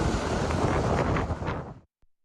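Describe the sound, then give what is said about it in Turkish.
Strong wind from a tornado in Yumurtalık district, Adana, Turkey: a loud, broad rushing roar that buffets steadily, then cuts off abruptly near the end, followed by one faint thump. “Yumurtalık ilçesinde hortum çıktı. Kısa sürede büyüyen hortum paniğe neden oldu.”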